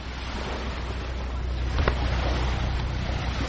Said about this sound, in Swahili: Huu ni mkondo wa maji katika bahari Hindi. Hapa ni kutoka kisiwani Mombasa kuelekea eneo la Mtongwe.